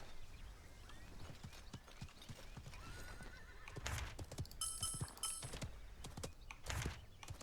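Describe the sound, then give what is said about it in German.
Horse hooves clip-clop in quick, uneven beats as a horse is ridden in a video game, with a brief whinny partway through; the whole passage is faint. “Reiten wir mal zur Kiste.”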